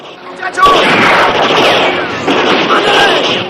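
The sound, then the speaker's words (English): Gunfire as a man is shot from a wall: a loud sharp burst that opens into a sustained, roaring, noisy blast lasting several seconds. “One of Ira's men is shot from the wall.”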